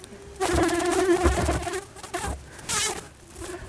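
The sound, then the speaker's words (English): A grey, furry bee fly buzzes with a steady mid-pitched hum that rises in loudness for over a second, fades, then returns in a brief second burst. “That's a bee fly. It's amazing.”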